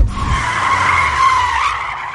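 Car tires skid as the car brakes hard to a stop. A loud, sustained high squeal lasts about two seconds and holds fairly steady throughout.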